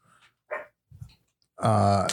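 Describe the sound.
A dog barks and growls in the background at home: a few short, faint yaps followed by a louder, drawn-out harmonic bark or growl at the end.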